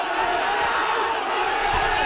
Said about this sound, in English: Police in India have attacked a crowd of thousands of protesters trying to march on Parliament.